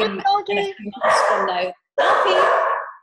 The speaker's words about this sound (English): that's my dog, so I must be at the door.